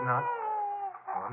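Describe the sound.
A baby cries at a frontier station in one sustained, high, wavering wail, while a man speaks alongside it.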